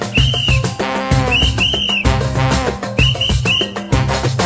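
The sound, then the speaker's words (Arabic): Whistle blown as a signal, one blast meaning calm and two meaning danger: short, high whistle tones, single and in pairs, sound over loud rhythmic music. “صفارة واحدة معناها الجو هادي وصفارتين معناها الخطر بادي يعني الجو هادي أصفر بالصفارة”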